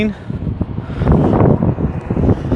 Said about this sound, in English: It's really windy and it's really cold.